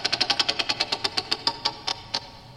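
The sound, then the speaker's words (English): A prize wheel spins, its pointer ticking in many rapid, evenly spaced clicks that gradually slow and spread apart until the last few come with long gaps as the wheel winds down. “Well, I've set up the wheel. It's ready for us. All right. I'm going to spin. Let's go. Three, two, one, go.”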